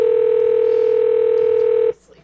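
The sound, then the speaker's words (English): A telephone ringing tone plays on an outgoing call, one loud, steady, unbroken pitch held for about two seconds before it cuts off abruptly into quiet background noise. “Tony Partington, please answer the phone.”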